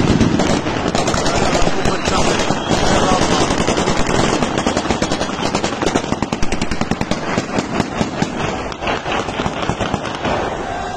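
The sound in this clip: Celebratory gunfire in the city of Aleppo, fired by groups in joy: dense, rapid, crackling bursts of shots continue without pause for the whole stretch, loud and sharp, with no quiet gaps between volleys.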